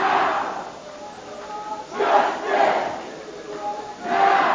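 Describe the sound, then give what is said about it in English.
Hundreds of protesters chant together inside a legislature building, near the chamber doors: massed voices surge and fade in rhythmic swells, each wave of shouting rising loud before dropping back to a crowd murmur. “That's the sound of hundreds of protesters inside the General Assembly.”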